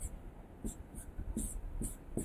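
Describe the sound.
Writing a math formula on a board, heard as about six short, scratchy strokes spaced at a fairly even rhythm, faint over a low background hum with no talk.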